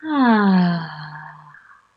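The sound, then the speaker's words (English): A long, deep voiced exhale in a guided breathing exercise, a sighing breath that swells quickly, slides slightly lower in pitch, then trails off and fades out after nearly two seconds. “So big breath in and out.”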